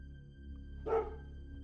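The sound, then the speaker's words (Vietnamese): A dog wagging its tail gives a single short, sharp bark, faint overall, over a steady low hum. “Con chó quẩy đuôi sủa lên gâu gâu.”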